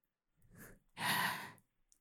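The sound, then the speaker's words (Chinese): A single heavy breath between two people pressed forehead to forehead: a soft inhale, a brief pause, then a louder, longer sighing exhale. It is heard alone, with no talk. “你的呼吸很急促，我的也是”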